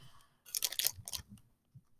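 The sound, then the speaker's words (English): Snack wrappers crinkle during a quiet ASMR recording, making a few short, crackly bursts separated by brief pauses. “Why don't you take all of those out so we don't keep crinkling on the recording?”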